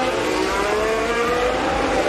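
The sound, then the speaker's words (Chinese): A Formula-style racing car drives at full speed on a circuit after a safety car period, its engine giving a steady, loud, broad roar with no clear change in pitch. “现在一个解套的赛车在全力在跑。”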